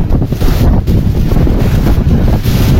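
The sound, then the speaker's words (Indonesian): Strong wind blowing hard enough to send trash flying and drag small information boards, heard as a loud, constant low roar buffeting the microphone, with uneven gusty surges and no voices. “bahkan beberapa barang-barang ringan seperti papan informasi kecil begitu ini juga terlihat terseret oleh anginnya.”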